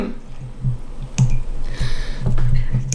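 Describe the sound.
Metal foil is picked and torn off the neck of a rosé wine bottle, with a few sharp, crinkling clicks and brief, scratchy rips at irregular intervals.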